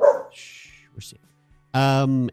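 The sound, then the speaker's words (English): A guard dog barks: a short tonal yelp at the start, faint scattered noises, then one loud, sustained, strongly harmonic bark or howl near the end. “And you're a very good guard dog. Good job. Good guarding. Yes, we're safe.”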